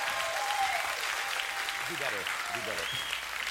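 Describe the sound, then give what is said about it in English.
Applause from a church audience welcoming a guest pastor, steady dense clapping throughout with a few whistles and scattered voices rising over it. “give us another big Cape Christian welcome to our friend, Pastor John Weasel.”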